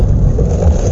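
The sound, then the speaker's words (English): Roaring wind from a Saskatchewan prairie storm, one of many that brought funnel clouds, large hail and winds strong enough to topple grain bins: a dense, loud, low rumbling gust with no break. “That's the sound of one of many storms that produced funnel clouds, large hail, and winds strong enough to knock over grain bins throughout the province.”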